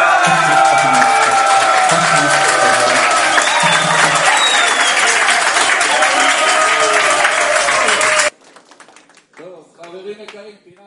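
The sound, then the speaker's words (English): Audience applause for Georgia's performance in Vilnius roars as loud, continuous clapping and crowd noise for about eight seconds, then cuts off abruptly to a much quieter passage where a voice speaks. “Georgia, the whole world is now standing up to applaud you. Georgia, we want to see you.”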